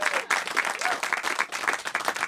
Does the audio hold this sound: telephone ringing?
no